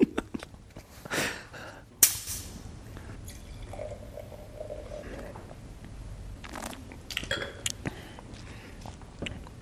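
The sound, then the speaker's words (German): A wine bottle being opened: one sharp pop-like transient stands out amid soft rustling, faint liquid trickles and low murmuring. “Wir haben extra zwei Flaschen mitgebracht. Ich will mal die Flasche aufkriegen.”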